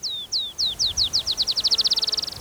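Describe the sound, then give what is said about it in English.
A Black-chinned Sparrow sings a series of sweet, high, downslurred notes that start slow and speed up into a rapid trill. “Black Chin Sparrow singing. Again, on May 1st, 2004.”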